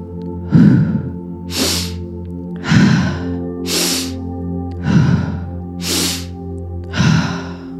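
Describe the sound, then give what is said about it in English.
Forceful breathing practice, nose inhales alternating with mouth exhales, about seven breaths in an even rhythm: lower, rougher breaths trade with brighter, hissing ones over a soft sustained tonal bed. “we're going to do a nice forceful inhale through the nose and forceful exhale out the mouth.”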